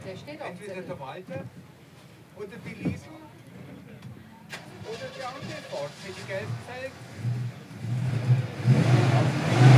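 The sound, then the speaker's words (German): A car pulls away and accelerates at the start of a rally outing, its engine swelling from a low hum into a louder, rising drone over the last few seconds, with people talking during the earlier part. “ist ein schönes Auto, fährt sehr ruhig und gut und auch der Fahrer, der kann es recht gut. Somit wünschen wir dir schon mal einen guten Start in die Ausfahrt und Start frei.”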